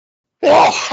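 A single loud sneeze bursts abruptly out of silence as a harsh, breathy blast. It trails off quickly with a short second puff at the end.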